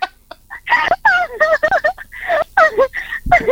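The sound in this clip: A person imitates a rooster crowing in a run of loud, warbling vocal calls. The pitch slides up and down in quick bursts, with short gaps between them, across the whole clip.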